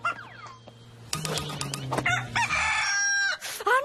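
A rooster crows loudly at a small chicken contest, giving drawn-out harmonic calls mixed with clucking over a steady low hum.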